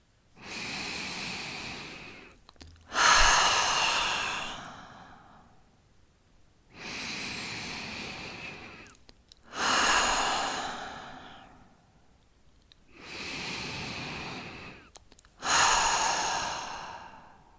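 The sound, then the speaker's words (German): Deep breathing in and out as a calm relaxation exercise, repeated three times: each slow, airy inhale is followed by a stronger, longer exhale, with short quiet pauses between breaths. “Und dann atme noch dreimal tief ein und tief aus.”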